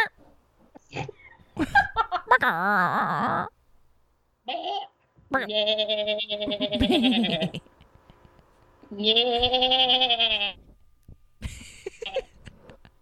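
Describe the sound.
A person imitates a goat, producing a few wavering, nasal bleats of varying length. Short pauses separate the bleats, and the voice is loud and quavering, with breathy noises in between.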